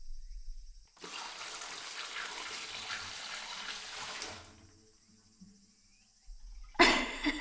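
Cold tap water rushes from an old bathtub faucet and is poured over someone's head. A loud, steady splashing lasts a few seconds, then fades, and a short burst of water returns at the end.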